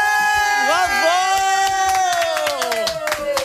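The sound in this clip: A crowd cheers after a birth announcement. Drawn-out voices slide downward in pitch over scattered sharp claps, staying loud throughout.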